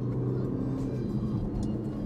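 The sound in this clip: Steady engine rumble and road noise from a Range Rover Evoque SUV accelerating on a road, a continuous low drone with an even loudness throughout.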